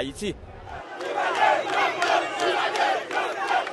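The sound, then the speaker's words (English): A crowd of hundreds at the gates of Haiti's airport at night chants Jean-Claude Duvalier's name, a loud, roaring mass of voices pulsing in a rhythmic chant throughout. “Hundreds of people mobbed the gates to the airport last night chanting Jean-Claude Duvalier to welcome the former president for life home after 25 years in exile.”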